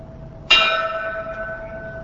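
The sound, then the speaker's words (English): A single bell struck at a nighttime vigil on the steps of the Milwaukee courthouse: one clear metallic strike that rings on with a sustained, slowly fading tone and no talk over it. “A bell was sounded and the names of the dead were read in alphabetical order.”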